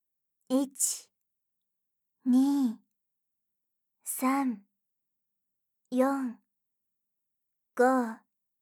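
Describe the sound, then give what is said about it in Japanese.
Slow breaths out through the mouth during a guided breathing exercise, heard as five soft, evenly spaced, drawn-out voiced sighs, each trailing off. “最後に6つ数えながら口から息を吐いて”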